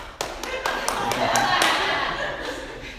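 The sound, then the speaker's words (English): Hands clapping in a run of sharp, separate claps at an even pace, followed by a softer wash of noise. “Could you imagine the Lord of the Universe? Could you imagine us clapping for him like that?”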